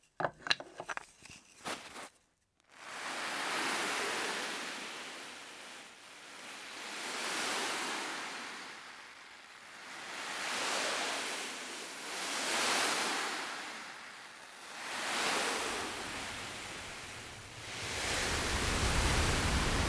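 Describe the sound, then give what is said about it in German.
Handmade effect of ocean waves breaking, made for film sound design: a soft, hissing wash that swells and recedes in slow, regular surges, with a few brief clicks at the start. “Und zwar genau in dem Rhythmus, wie die Welle auch wirklich bricht. Und wenn man das einbettet in ein Sounddesign, dann ist es einfach eine perfekte Mischung zwischen handgemachtem Geräusch und Sounddesign aus dem Archiv.”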